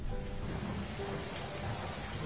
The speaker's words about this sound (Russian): А тут дождик начался. Звонкий такой дождик, веселый, теплый-притеплый.